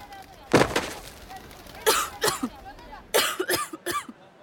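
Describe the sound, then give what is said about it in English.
A woman choking and gasping for breath in an audio drama as she is lifted by the throat and kicks: rough coughing bursts, then strained, rasping gasps. “Bull reaches over Grayson's shoulder and chokes Tasha. He picks her up with one hand. Tasha kicks her feet as she struggles to breathe.”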